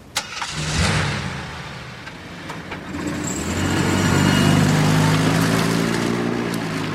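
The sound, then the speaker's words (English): A car engine runs as the vehicle drives away, a low steady drone that swells louder and fuller over several seconds before easing slightly at the end. “Tammy watches Lisa drive away.”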